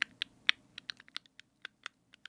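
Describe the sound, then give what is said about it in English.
ASMR-style typing on a computer keyboard whose keys have jam stuck underneath. Many quiet, crisp key clicks come in an irregular, unhurried rhythm, some louder taps standing out against near silence. “ASMR of typing keys”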